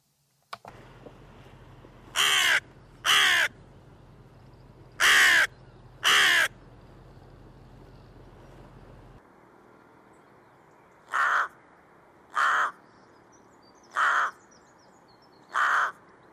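Crows and rooks cawing, some calls deepening at the end and others flat throughout. There are two loud sets of four harsh caws, the first set in pairs over a humming background and the second evenly spaced against a quieter one.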